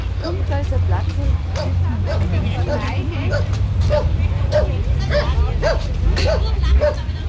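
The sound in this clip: A dog yips and barks over and over in short, high bursts throughout, above a steady low hum.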